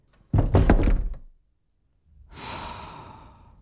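A door shut firmly, a loud, heavy thump with a short rattling tail, then a pause and a long, soft breath that swells and fades.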